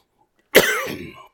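A single short, loud cough from a preacher who has just choked mid-sermon, with a harsh burst that trails off raggedly within about a second, alone with no talk.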